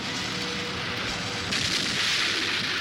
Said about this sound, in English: The blast-off was perfect.